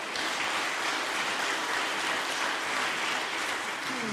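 An audience at a worship gathering claps in steady, dense applause that holds at an even, moderate level for the whole stretch, with no voices on top.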